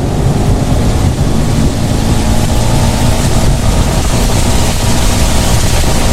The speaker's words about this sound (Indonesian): hujan nih, aku ngebut ya.